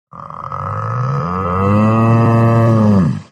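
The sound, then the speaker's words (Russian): A bull bellows once: a long, loud, deep call with rich harmonics that swells, holds steady for a few seconds, then cuts off abruptly. “Вторил мне бык, призванный щитом пастуха.”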